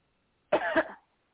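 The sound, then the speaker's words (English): A single short, sharp cough bursts out loud and alone after silence, given on command during a prayer session. “Now take a deep breath and cough.”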